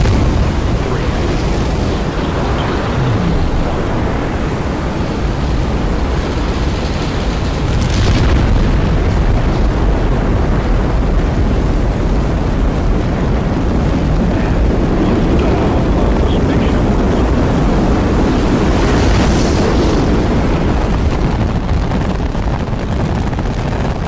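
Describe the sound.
Rocket liftoff: a loud, dense roar of engine thrust with deep rumble that holds steady for the whole stretch, broken by a few rough crackling surges.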